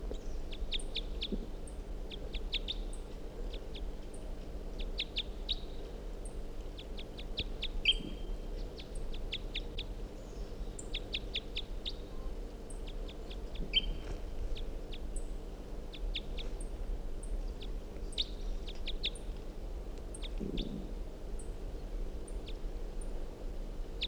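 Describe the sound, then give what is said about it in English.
A wild bird calls over and over in short, high-pitched bursts, many quick notes in clusters, fairly faint above a steady low hum. “So we're going 7:45, wild bird here.”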